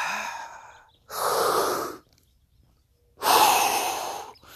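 Deep breaths taken by a person on a guided run: a fading airy breath at the start, then two long, loud rushes of air separated by a short silence.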